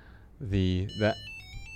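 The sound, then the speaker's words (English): A phone ringtone plays after a tracker is double-tapped, ringing even though the phone is set to silent. Brief tonal ringtone notes follow a moment of talk. “You can double tap that, yeah. And it will ring my phone even if the phone is on silent.”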